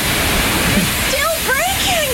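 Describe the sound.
Gushing water effect for a comedic birth-waters-breaking gag: a loud, continuous rushing wash, with a few wobbly sliding tones rising and falling over it in the second half.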